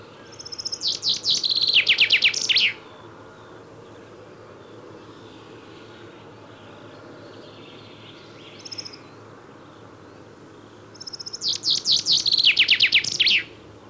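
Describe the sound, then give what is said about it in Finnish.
Chaffinch song: two loud, bright trilling phrases of about two seconds each, separated by a long pause with only a brief faint chirp between them, over a steady low background hum. “kuuntelemme varmuuden vuoksi vielä kerran. Ensin peippo.”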